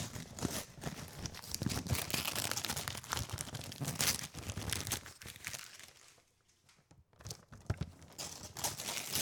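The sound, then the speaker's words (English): Wrapping paper crinkles and tears as a wrapped Christmas gift is unwrapped. The dense, loud rustling runs almost continuously, drops to a short lull near the end, then resumes. “Oh man, this sounds great. We make a whole YouTube channel with just Christmas gift unwrapping ASMR, dude.”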